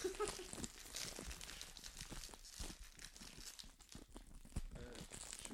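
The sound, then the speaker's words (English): Packaging is unwrapped loudly with continuous crinkling, crackling and tearing rustles. The sound stays busy and dense from start to finish. “Let's get some audio poison of like unwrapping loudly. Oh, it's hard.”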